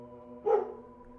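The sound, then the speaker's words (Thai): A dog lets out a single short, sharp vocal burst, a bark or yelp, as people walk past during a power cut. A steady low hum runs underneath. “หมาคงเห็นคนละมั้งเดินผ่านมันก็หอนปกติแหละ”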